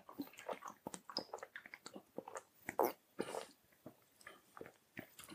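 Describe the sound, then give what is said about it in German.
Quiet sipping and swallowing as people drink and taste a sweet beverage. Many short, wet clicks and slurps come in an irregular rhythm, with soft breaths in between. “Also, wir trinken jetzt.”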